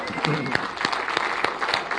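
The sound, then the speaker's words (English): Congregation applause during a church service: steady, dense clapping across the whole clip, with some voices mixed in. “Let's give the Lord a clap.”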